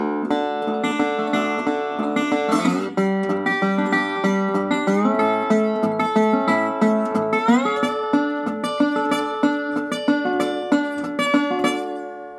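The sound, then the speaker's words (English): Acoustic 12-fret guitar fingerpicked with a slide worn on the ring finger over D, G and A chords, closing at the 12th fret over D, slightly out of tune up high. Many plucked notes ring out with sliding pitch glides, and no voices are heard. “what I am going to do is finger pick over the D chord, finger pick over the G chord, finger pick over the A chord, and then close things out up at the 12th fret over the D chord.”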